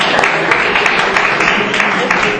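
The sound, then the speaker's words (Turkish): Audience applause at a quiz contest after group scores are read out, a dense, loud patter of many hands clapping that holds steady throughout. “Alkışlıyoruz.”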